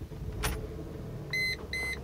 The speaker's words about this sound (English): Let me turn the car on so the battery doesn't die.